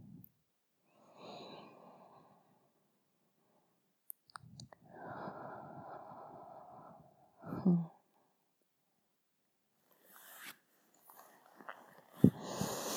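Slow, deep breathing comes as soft, breathy inhales and exhales, each stretching over a second or more, with quiet pauses between them. It stays faint and close, with a brief sniff near the end.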